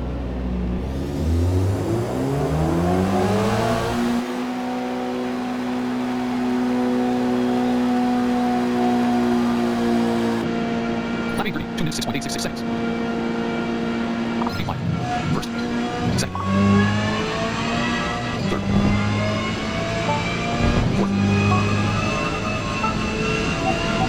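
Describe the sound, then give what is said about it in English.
A race car engine drones and whines as the car heads out of the pits after refuelling and new tires, a steady, strong tone with shifting pitch and a few sharp interruptions. “Your car is filled with gas and gets new tires from your crew. Set score 1.0. Your car heads out of the pits.”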